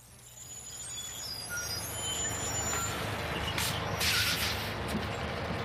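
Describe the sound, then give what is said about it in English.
A bus pulling up, its low engine rumble building gradually, with short bursts of hissing air release toward the end. “Is this bus going to Riverdale? Yep, I'm headed that way.”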